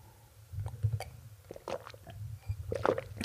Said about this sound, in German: Ich muss mal kurz einen Schluck trinken.